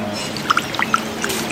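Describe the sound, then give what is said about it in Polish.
Sea-water sound effect: a handful of short watery plops and drips over a faint steady hiss, brief and moderately loud, with no talking. “Proszę, wypłynęliśmy w szerokie morze. A to całe morze, jeszcze poproszę o te fale, takie 8-metrowe.”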